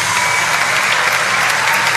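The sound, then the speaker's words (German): A standing audience in a tent gives loud applause as film actors come onto the stage, creating a thick, continuous roar of many hands clapping at an even, high level throughout. “Großer Applaus des Publikums. Das Publikum hat sich erhoben. Ich hoffe, man hört mich. Es ist sehr, sehr laut im Zelt.”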